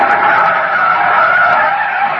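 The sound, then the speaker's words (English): A car brakes hard, its tires skidding in one loud, continuous screech that holds steady for about two seconds with no pause. “Jam on the brakes.”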